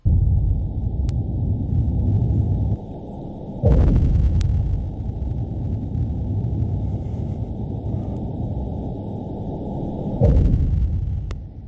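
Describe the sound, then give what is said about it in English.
Seismic air guns used to search for oil and natural gas beneath the ocean fire underwater. Two loud, broad booms stand out about six seconds apart over a constant deep rumble, with a few faint sharp clicks scattered between them. “The sounds of the surf that we're all used to hearing crashing along Florida's Atlantic coast could be joined by that sound, the sound of air guns, searching for oil and natural gas beneath the ocean's surface, out in federal waters.”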